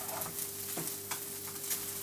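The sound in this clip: Butter rice sizzling and frying in a pan as it begins to scorch, a steady crackling hiss broken by a few soft scraping stirs.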